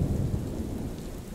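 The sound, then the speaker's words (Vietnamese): Night-time rain in a thunderstorm, a loud, dense, continuous wash of falling rain over a deep low rumble of thunder, steady for the whole short stretch. “Đêm hôm đó, trời mưa lâm râm mãi không dứt.”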